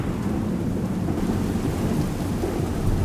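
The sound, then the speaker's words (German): Rain falling in a steady, dense wash of hiss with a low rumble underneath, constant in level throughout and with no voices. “Es regnet. Auf dich drauf.”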